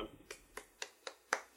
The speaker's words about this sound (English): that is my applause for Vineland for keeping the prices accessible.